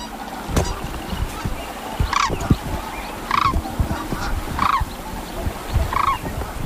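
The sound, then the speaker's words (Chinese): A pair of sandhill cranes calls after mating and settling in. Four evenly spaced, rattling calls rise above a low rumbling background with scattered clicks. “沙丘鹤夫妇已经安顿下来，”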